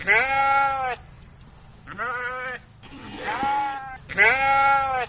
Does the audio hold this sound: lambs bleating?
yes